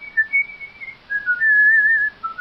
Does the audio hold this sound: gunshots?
no